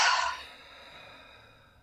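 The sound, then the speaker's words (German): A single deep breath out through the mouth during a guided grounding meditation, a soft airy whoosh that starts strongest and slowly fades away to near silence, with no talking. “Dann nimm nochmal einen tiefen Atemzug durch die Nase ein und durch den Mund aus.”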